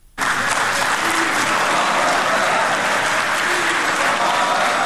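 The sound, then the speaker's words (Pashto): Loud, sustained applause fills a luxury hotel in Doha at the signing of a peace agreement between Taliban and American diplomats. It breaks out abruptly after a moment of near quiet and holds steady throughout. “د دوهې په یو مجلل 15 هوټل ال شیراتون کې د چکچکو دغه غږ وروسته تر هغه د غونډې پر فضا خپور شو”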